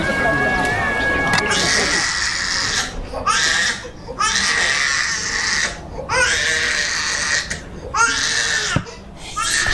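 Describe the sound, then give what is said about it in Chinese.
A child cries loudly in many wailing bursts broken by short gasping pauses, while an adult voice talks over the sobbing. “哭哭哭哭什么哭？别哭了。”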